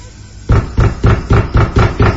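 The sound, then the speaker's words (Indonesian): Seven loud, heavy bangs on a door, deep thuds in a quick, steady rhythm after a brief quiet start, with no voices. “ada suara menggedor pintu. Lalu kutimpali ketukan itu dengan pertanyaan.”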